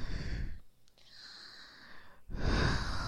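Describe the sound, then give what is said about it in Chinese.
Slow, deep breathing close to the ear during a relaxation exercise: a soft, airy breath, then a quieter stretch, then another strong, rushing breath, with no talk. “经过我几次在你耳边的深呼吸，”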